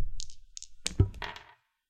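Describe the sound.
Dice rolled during a tabletop roleplaying game: a few light clicks, then a heavier thunk and a brief rattle as they settle, with no talk.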